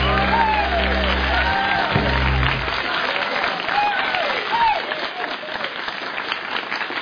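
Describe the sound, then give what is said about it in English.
Audience applause for the band at a live music show: dense, sustained clapping runs throughout, mixed with crowd cheers and rising whoops. “One more hand for the band. Joel Gallen of Dennis. Let him hear it.”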